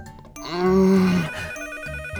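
A telephone ringing: a bright, melodic tonal ring swells in one sustained burst over steady background music, then fades back to the music alone.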